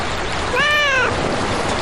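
A cat on a university campus in Taiwan gives a single clear, tonal meow lasting about half a second, heard over a steady rushing background noise.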